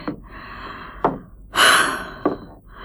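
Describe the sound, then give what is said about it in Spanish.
Heavy, strained breathing from a person struggling for air in a radio drama: short sharp breaths around one long, loud gasping inhale in the middle, with no words. “Hay algo que intenta ahogarme. Respiro fuerte.”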